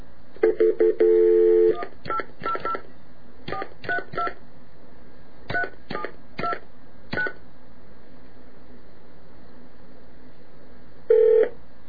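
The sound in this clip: Touch-tone telephone dialing to retrieve a fax: many quick keypad tones in clusters, spread over several seconds, then a pause and one final burst of tones.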